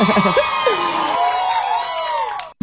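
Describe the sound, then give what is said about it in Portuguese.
An audience shouts and cheers loudly, with whoops and drawn-out yells that glide in pitch, then stops abruptly at the end. “Quem gostou, dá um gritão aí.”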